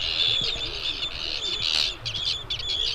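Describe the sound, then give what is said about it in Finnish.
Arctic tern calls: repeated sharp, high-pitched chirps that follow one another steadily over a faint low background rumble. “Viikon luontoääni kuuluu Lapin Tiiralle.”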